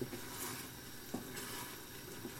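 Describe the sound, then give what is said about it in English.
Frozen peas are stirred into risotto in a pan. A faint sizzle runs throughout, with soft scraping stirs and a few light knocks of the utensil against the pan. “I'm going to put in some frozen peas. I'm going to stir those in as well.”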